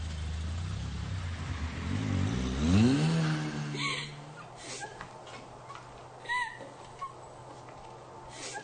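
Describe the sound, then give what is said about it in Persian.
A car driving off: the engine revs with a rising pitch, then settles to a quieter low rumble with a few faint clatters. “پسر جوان سوار ماشین میشه و حرکت میکنه.”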